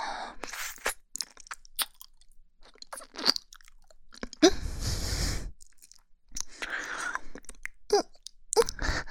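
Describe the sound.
Candy is licked and crunched: quiet, irregular crisp crunches and wet mouth sounds come in scattered bursts, with one longer, louder grinding crunch midway.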